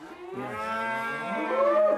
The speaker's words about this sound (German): Aufregung im Galloway-Stall. Ein Teil der Herde geht heute auf die Reise.